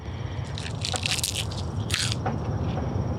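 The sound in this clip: Biting into a freshly picked, crisp, springy vegetable crop: several bright, crackly crunches in quick succession over steady low background noise.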